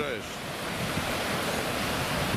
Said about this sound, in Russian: Так, вот идет волна хорошая сейчас.